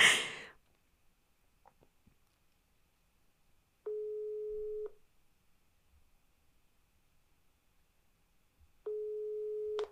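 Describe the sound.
Ringback tone of a telephone ringing unanswered during a call: two long, steady, mid-pitched buzzing tones, each about a second, separated by several seconds of near silence.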